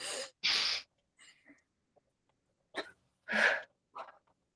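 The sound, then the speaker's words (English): Deep breaths taken between mantra repetitions in a guided healing practice: a few airy, breathy bursts, two strong ones early and another later, separated by near-silent pauses. “We're going to take a deep breath in between each time.”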